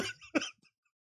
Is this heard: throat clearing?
yes